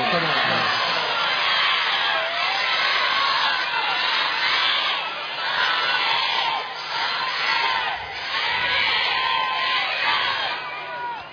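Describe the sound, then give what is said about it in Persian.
A large crowd recites salawat aloud in unison, closing a religious talk addressed to sisters and brothers. The massed voices form a loud, dense and continuous murmur that dips briefly before swelling again. “هر کی از فرمایشات و جاها بهره برد بلند صلوات ختم کنه.”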